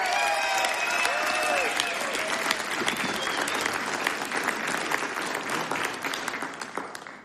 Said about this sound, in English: Give it up one more time for Calvin Arcena.